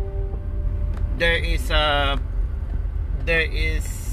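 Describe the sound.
Inside a moving car, a steady low engine and road drone runs throughout beneath a man talking.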